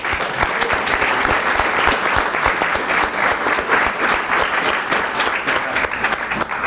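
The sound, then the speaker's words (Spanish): Audience applause at a book presentation of a Cuban edition reprinted in Mexico: dense, steady clapping from many hands, sustained at an even loudness throughout with no voices standing out. “Si hay unas personas aquí que nos han acompañado hoy, que yo creo que merecen un aplauso.”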